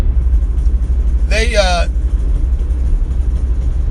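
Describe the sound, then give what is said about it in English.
Steady low rumble of a car driving along a road, continuous throughout, with a short voice-like tonal sound partway through. “Now, I'm not even sure which side of the damn road is closed. I'm guessing the right side. Perils of getting to listen to me drive and do this shit at the same time.”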